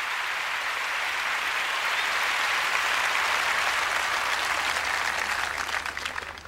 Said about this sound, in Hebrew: מתחיל במחיאות כפיים.